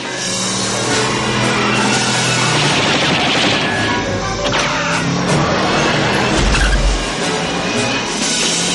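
Car chase through a parking lot from the 1985 film Back to the Future, with terrorists pursuing the DeLorean: a loud, dense, continuous mix of engine roar, sharp bursts and crashes, thick throughout with heavier low thumps near the end.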